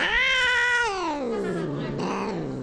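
An unhappy cat lets out one long, loud, drawn-out yowling meow whose tone slides gradually downward in pitch.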